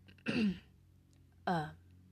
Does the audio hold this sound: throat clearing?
yes

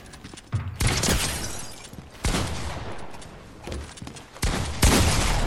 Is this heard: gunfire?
yes

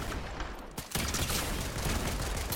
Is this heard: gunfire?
yes

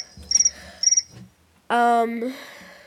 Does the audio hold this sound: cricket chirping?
yes

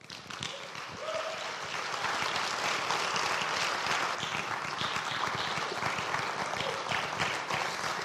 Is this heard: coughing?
no

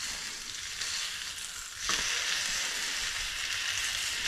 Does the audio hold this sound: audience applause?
no

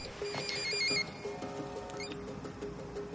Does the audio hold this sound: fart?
no

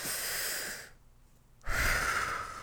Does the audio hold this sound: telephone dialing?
no

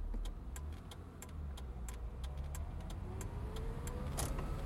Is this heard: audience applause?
no

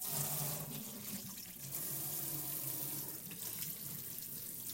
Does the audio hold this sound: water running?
yes

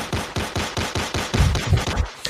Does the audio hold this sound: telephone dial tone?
no

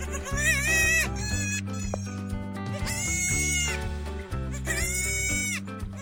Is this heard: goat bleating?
yes

